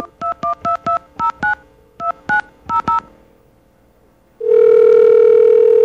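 Touch-tone keypad beeps as a phone number with its area code is dialed: ten crisp tones in a quick group of six and then four. After a pause, a loud, steady tone sounds alone.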